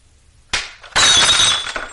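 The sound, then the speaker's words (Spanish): A drinking glass is thrown to the floor: a short knock, then a loud shattering crash followed by a spray of tinkling shards that rings on and slowly thins. “Alberto le tira la copa al suelo.”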